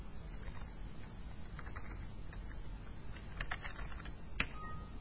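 Soft clicks of a computer keyboard as the Tab key is pressed, a few light key taps over a faint steady hiss.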